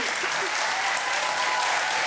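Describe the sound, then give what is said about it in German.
Hearty applause from an audience: dense, continuous clapping that stays steady and even throughout. “schicken wir einen ganz herzlichen Applaus zu Ihnen”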